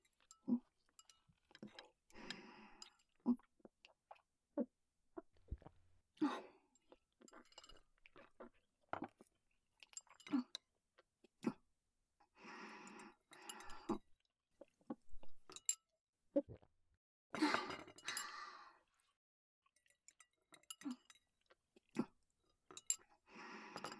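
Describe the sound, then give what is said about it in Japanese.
Someone eats a meal. Quiet chewing is heard, with scattered light clinks of dishes and utensils in many short, separate bursts. “よし、今のうちに食事済ませよ。いただきます。”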